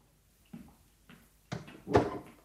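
A door being opened or closed: a few soft wooden knocks and clunks, building to a louder thud at the end, with no voices.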